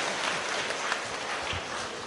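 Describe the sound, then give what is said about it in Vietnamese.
Audience applause at a live talk event: steady, dense clapping from many hands, loud and continuous throughout without a break. “Chúng ta cho thêm một tràng vỗ tay nữa cho sự kỳ ngộ này.”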